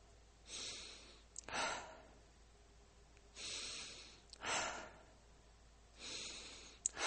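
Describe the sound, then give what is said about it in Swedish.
Deliberate breathing in a guided breathing exercise: slow, airy inhales and exhales in a repeating cycle. A few quiet breaths rise and fall, with no speech. “Bevisst pust. Hvis vi ökar farten på din pusten så kallar vi det illpust och bränner vi raskare.”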